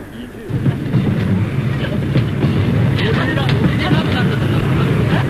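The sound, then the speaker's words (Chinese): A train running: after a brief quieter start, a steady, loud, low rolling rumble with faint clatter continues to the end, setting a winter train ride. “接着是冬天，两个刑警压着耕作坐上火车。”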